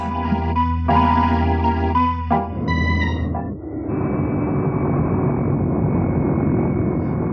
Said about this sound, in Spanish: El avión regresa. ¡Oh! Ha dado vuelta en redondo y viene hacia nosotros como si persiguiera al buitre.